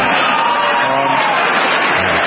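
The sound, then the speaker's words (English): An audience at a political speech applauds and cheers after a remark about having no more campaigns to run. A dense, steady wash of clapping and crowd noise continues unbroken. “Republicans are clapping because he has no more campaigns to run.”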